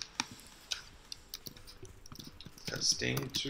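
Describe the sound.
Computer keyboard typing, with sparse single key clicks and short bursts early on, then a denser, louder run of keystrokes toward the end.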